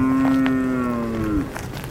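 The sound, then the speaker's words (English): A cow on a farm in Uganda gives one long, low moo, steady and loud, then slides slightly in pitch before cutting off abruptly, leaving faint background noise. “These cows are his prized possessions, and, you know, they're beautiful.”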